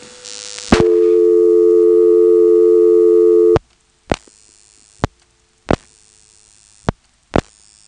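A telephone exchange director deciding a route gives a steady, loud, mid-pitched tone lasting about three seconds. Five sharp pulsing clicks follow at uneven intervals, with no voices.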